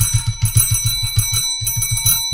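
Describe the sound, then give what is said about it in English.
A bell is struck over and over at a drinks contest finale, giving a bright metallic ringing in many quick, rapid strikes with a brief pause partway through before the ringing resumes. “Hit the damn bell.”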